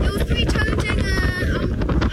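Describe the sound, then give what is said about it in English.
Strong, biting wind buffeting the microphone on a mountain peak, a dense, loud, continuous roar with heavy low rumble throughout. “On top of the peak, the biting wind howls around and almost takes us off our feet.”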